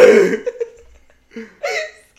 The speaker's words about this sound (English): That was a burp! Excuse me.